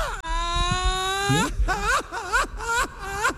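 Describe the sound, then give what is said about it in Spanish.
Someone wails and cries, beginning with a long, drawn-out, steady wail and then breaking into several wavering, sobbing cries of rising and falling pitch. “¡Ay, hombre! ¿Por qué llora?”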